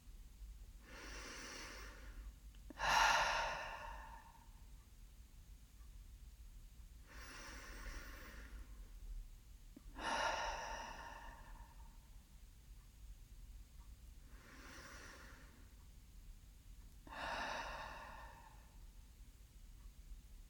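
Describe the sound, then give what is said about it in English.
Three deep, slow clearing breaths, each a long airy inhale followed by a louder, rushing exhale, evenly spaced with quiet pauses between them. “Keep your eyes closed and take three deep, slow, clearing breaths together.”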